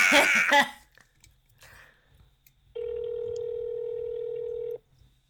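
Telephone ringback tone on a call to a 1-800 number: a single steady, mid-pitched ring lasting about two seconds, preceded by a brief cough-like sound and faint scattered noises.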